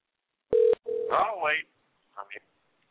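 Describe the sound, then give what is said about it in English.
A telephone dial tone sounds as a short, steady, mid-pitched burst, then a second tone runs into a voice, with a few brief fainter sounds afterward. “Oh, wait, I'm hearing a dial.”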